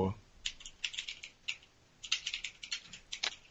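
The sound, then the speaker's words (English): Faint typing on a computer keyboard: many light, crisp key clicks in irregular bursts and short runs, with brief pauses between clusters. “what are you typing?”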